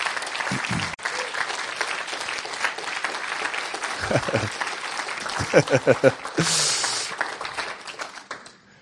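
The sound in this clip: Audience applause welcoming someone to the stage: a dense, continuous patter of many hands that holds steady, with a few low voices briefly rising through it toward the end.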